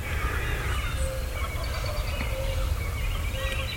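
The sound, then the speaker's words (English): A wild turkey gobbler gobbles from down the far side of a wooded hill, a faint, rapid, rattling burst heard over steady low outdoor background noise. “Did you hear that? There's a gobbler. He's probably down.”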